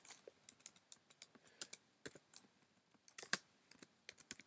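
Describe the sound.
Computer keyboard typing: many quick, light keystrokes in an uneven rhythm, fairly faint, with one brief louder flurry near the middle and no voices.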